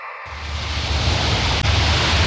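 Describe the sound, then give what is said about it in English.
Ocean waves wash onto the famous beach at Waikiki in a continuous broad roar of surf. The rushing noise holds steady and fairly loud, with no distinct individual breakers standing out. “That is the sound of the waves here on the famous beach at Waikiki.”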